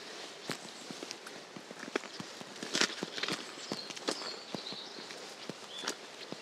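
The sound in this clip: Boots make many steady footsteps as someone walks up a dry stream bed used as a path, with sharp, irregular crunching steps over a continuous low background hiss.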